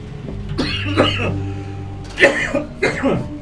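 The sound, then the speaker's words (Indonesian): A few harsh coughs in short, rough bursts, two pairs following in quick succession, with no speech. “Gue nahan batuk banget dari tadi.”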